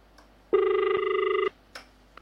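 A phone line cutting off during a call-in radio show: one steady electronic tone lasting about a second, followed by a couple of faint clicks.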